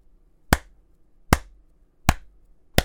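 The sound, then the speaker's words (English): An audience claps methodically in unison: four sharp, evenly spaced claps ring out, each followed by a quiet gap. “all of the forms in the audience start like methodically clapping in unison”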